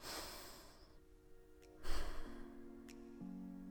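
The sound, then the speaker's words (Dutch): A deep breath taken together, soft airy rushes of inhaling and exhaling, one near the start and a fuller one in the middle, over steady low sustained musical tones. “Laten we afsluiten met nog één keer diep ademhalen samen.”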